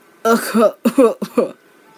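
Dry coughing from a hunched old man: three rasping, throaty bursts, the first longer and doubled, the last short and weaker.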